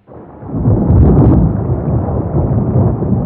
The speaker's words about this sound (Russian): К довершению несчастья началась гроза.